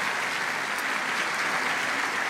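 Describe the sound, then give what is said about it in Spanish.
A church audience gives welcoming applause during a service, an even, continuous patter of many hands clapping at moderate volume, alone without voices, holding steady to the end. “les damos este aplauso de bienvenida también a todos ustedes, santos hermanos”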